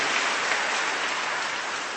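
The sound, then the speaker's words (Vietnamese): Big round of applause at a church gathering for three people: dense, continuous clapping from a crowd that blurs into an even, rain-like hiss and holds steady throughout. “một tràng pháo tay thật lớn cho ba con người này.”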